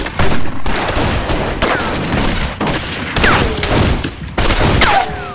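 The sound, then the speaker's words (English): A volley of rifle fire from six shooters with telescopic sights, pouring about 80 rounds into woods: many loud, overlapping shots in dense, continuous bursts with almost no pause. “between the six of them put about 80 rounds into the woods”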